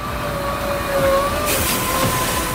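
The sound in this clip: An ice resurfacing machine drives over the rink at an ice hockey academy, making a continuous mechanical rumble and drone with a thin steady whine above it, at a fairly even level throughout, with no voices.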